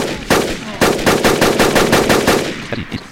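A burst-mode weapon firing in a video game: loud, sharp gunshots in rapid repeated volleys, dense and punchy, with no talk over them.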